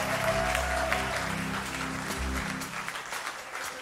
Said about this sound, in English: Come on, clap your hands unto the Lord.